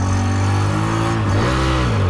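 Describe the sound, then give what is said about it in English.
The engine of a homemade shoe-shaped car over 30 years old drones loudly as it drives around a car park. Its steady, buzzy tone dips briefly in pitch partway through, then picks back up. “I manage to drive the shoe around the car park for about 30 seconds before the engine gives out, which isn't bad for a homemade vehicle that's over 30 years old.”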